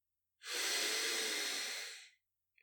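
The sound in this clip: A single deep inhalation during a guided relaxation exercise, a smooth, breathy hiss lasting under two seconds, heard alone with silence around it.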